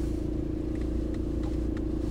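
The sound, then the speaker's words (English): A car drives along the road with a steady low engine and road rumble, constant in level, with a few faint clicks over it. “Right now, I'm headed over to Walmart. That's what I'm. That's why I'm gonna do like a 20 minute drive.”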